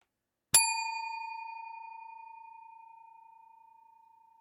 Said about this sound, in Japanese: それがスクリーンに映し出される。そしてベルの音で年齢が下がっていく。